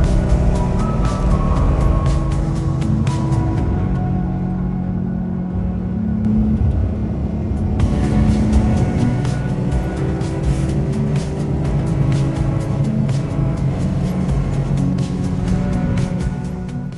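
Car being driven, a steady loud engine and road rumble that holds throughout with slight shifts in tone, alone with no voices.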